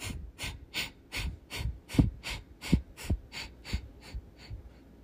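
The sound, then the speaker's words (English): A breathing exercise of quick, forceful nasal exhales in a steady rhythm. About a dozen sharp, hissy puffs come in an even pulse roughly every third of a second, each with a soft low thump. No voice is heard. “The key to this is to breathe out of the nose. The inhales will happen naturally. Your body knows what to do. So you're going to take an inhale here, inhale, and then exhale quickly.”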